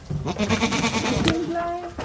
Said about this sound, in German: da kommen erstmal zwei große weiße Ziegen entgegen